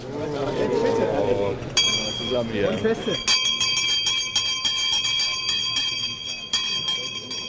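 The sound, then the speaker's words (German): An old stock exchange bell rings on the trading floor to mark a bicycle maker's first share price, giving a bright, continuous metallic ringing with rapid strikes. A voice talks briefly before the ringing begins, and the ringing then holds to the end. “Die Fahrradbauer sind zufrieden und sie dürfen die alte Börsenglocke läuten.”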